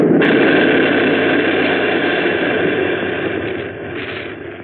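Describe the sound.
An artillery gun firing as a radio drama sound effect: a sudden loud burst of broad, roaring noise that holds and gradually dies down over several seconds.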